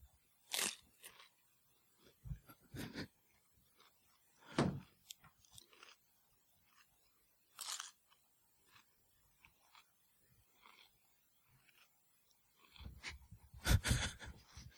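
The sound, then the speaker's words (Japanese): Crunching bites taken from a raw cucumber: a few faint, sharp crunches separated by pauses, with a louder cluster of crunching near the end and no speech. “キュウリをワイルドにかじるので”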